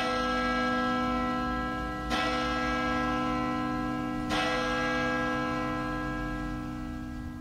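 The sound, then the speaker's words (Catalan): A village church bell rings with a sustained, humming metallic tone. Two fresh strikes renew the ringing partway through, with no voices. “Chino Chano va arribar fins un altre poble i també tocaven la campanada de l'església”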